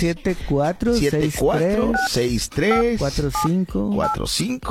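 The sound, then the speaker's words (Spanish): Telephone keypad dialing tones sound as a few short, clear beeps while a man keeps talking over them throughout. “Bueno, vamos a marcarle.”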